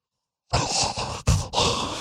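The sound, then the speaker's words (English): A vocal imitation of people mouth-breathing through dry braces: a few loud, wet, rasping breaths, hissy and throaty, with brief catches between them and no other sound. “I will do an impression now of them breathing.”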